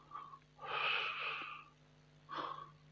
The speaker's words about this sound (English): And if you're kind of breathing too slow like this,